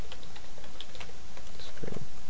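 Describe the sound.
Rapid typing on a computer keyboard: many light, uneven clicks in a continuous patter over a steady background hiss.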